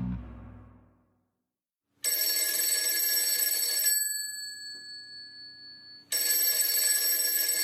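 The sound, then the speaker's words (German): A telephone rings during a spontaneous phone call, with two loud bursts of bright, high electronic ringing separated by a quieter, wavering tone. A low sound fades out before the first ring. “Ich rufe mal Michael Wucher an. Der spontane Anruf.”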